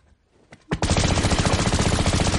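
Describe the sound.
Rapid machine gun fire erupts in a shootout, following a few faint clicks. The dense, loud bursts run continuously without pause to the end.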